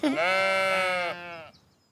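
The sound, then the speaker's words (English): A sheep on a farm with new lambs gives one loud, quavering, nasal bleat that lasts about a second and a half, then fades into quiet. “Here are the sheep. We have 3 new lambs this month.”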